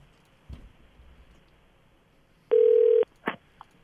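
A telephone ringing on the line: one steady, mid-pitched electronic tone lasts about half a second and is followed by a couple of short clicks, with a brief knock earlier over a quiet background.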